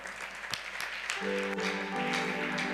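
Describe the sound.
Applause from a church audience standing to acclaim the Lord during a midweek teaching and prayer service. Steady clapping continues throughout, and a sustained tone joins partway through.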